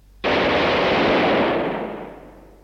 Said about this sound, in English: a few feet away is a pile of sandbags into which somebody's going to fire a 9mm Sterling gun now.